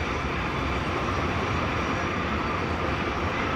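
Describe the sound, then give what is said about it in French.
A freight train with a long line of wagons passes below a village. Its broad, even rumble stays constant throughout, with no distinct clanks or voices. “Et voilà, on va passer effectivement un train avec un interminable cortège de wagons qui passe juste en bas du village.”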